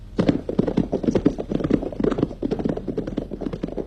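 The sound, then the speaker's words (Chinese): Horse hooves clip-clopping as riders travel on horseback, with many rapid, uneven hoofbeats running steadily throughout at an even loudness. “罗荣桓和参谋警卫员骑马赶往八纵队，八纵队司令员也骑马迎来”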